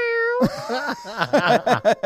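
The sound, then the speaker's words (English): A voice imitates a cat's yowling mating call: a drawn-out, wavering yowl followed by a few shorter, strained meows, loud and alone with no other talk. “I've been making cat sex noises with our cat”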